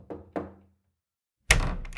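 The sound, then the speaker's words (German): Two soft knocks on a door come close together as dull, low thuds, each with a brief ring. After a pause, a louder, rushing noise follows. “Er ging mit einem schönen Teller zu ihr und klopfte leise.”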